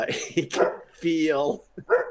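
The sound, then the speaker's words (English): A dog barks at a pregnant woman walking outside the house, giving a few barks, one drawn out and whining, with a person talking over them. “this dog just carrying on because this pregnant woman is walking out in front of his house. My dog actually doesn't bark this much usually”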